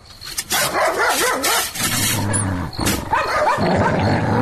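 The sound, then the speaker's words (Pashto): A dog barks and growls repeatedly while someone urges that a door be opened. The barks come in loud bursts, some drawn out into growling tones, over a rough background. “ژر کوه چې اوس د سپي ونه دړي”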